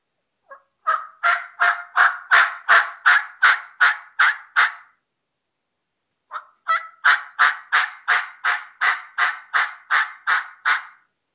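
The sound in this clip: Raspy bird yelps from a hunting mouth call, delivered in two evenly paced runs of about a dozen loud notes each, separated by a brief silence, with no talking.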